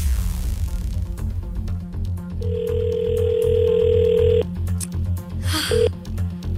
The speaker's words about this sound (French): le numéro de téléphone de la personne gagnante d'aujourd'hui. Est-ce que ça sonne? OK, ça sonne.